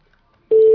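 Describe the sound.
An outgoing telephone call rings: after near silence, a single steady, loud, mid-pitched ringback tone switches on abruptly halfway through and holds to the end.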